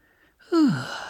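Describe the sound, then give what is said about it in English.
A single recorded human sigh or gasp, one of several breath types, starts suddenly with a loud voiced tone that slides downward in pitch, then trails into a breathy exhale that slowly fades. “He'd given me a whole spectrum of different types of breath, frightened breath, tired breath, as if in pain breath,”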